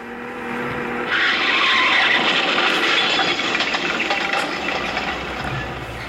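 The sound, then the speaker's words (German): Tires skid as a car is forced off the road and rammed by another car before it hits a tree. A long, loud, hissing screech rises early and holds for several seconds without a break. “Mr. Maximilian ist gegen einen Baum gefahren. Das andere Auto hat ihn abgedrängt und gerammt. Absichtlich.”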